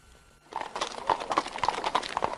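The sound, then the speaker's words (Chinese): Hooves clip-clopping as a horse-drawn carriage sets off. After a brief quiet moment, many crisp, rhythmic hoofbeats start up and continue steadily at a lively, even pace. “马车再度启动，走得异常平稳清洁。”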